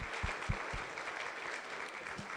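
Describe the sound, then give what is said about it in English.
An audience claps at an awards ceremony: dense, steady applause with a few sharper claps near the start, holding evenly for the whole moment. “So let's thank the boys again. Clap.”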